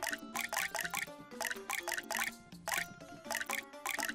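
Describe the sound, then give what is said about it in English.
Water drops plopping from two faucets in a drop-counting game: many bright, pitched plinks in a quick, irregular run, with brief pauses between bursts. “Which faucet has dropped more water? This one? Two?”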